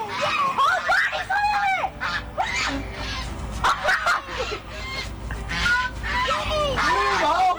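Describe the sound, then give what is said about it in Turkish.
A goose honks repeatedly while attacking a child, giving many harsh, nasal calls in quick succession, with voices mixed in throughout. “Kazın saldırdığı çocuğun zor anları kameraya yansıdı.”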